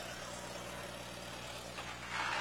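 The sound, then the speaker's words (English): Steady engine drone from a McCormick Farmall H tractor with a wide front end. The rumble stays low and continuous, then swells a little louder near the end. “Yep, it is a Farmall, but I can't see the numbers and it's not registered.”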